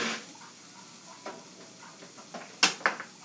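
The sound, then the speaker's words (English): Lunch being stirred in a pan: a faint, steady hiss with soft scattered scrapes, then a couple of sharper utensil clinks against the pan near the end. “It probably took a little longer than usual, folks, because I was stirring up my lunch at the same time.”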